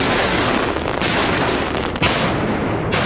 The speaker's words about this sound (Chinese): 这次演练中，他组织部门人员完成海上实弹射击和多型武器的模拟打击。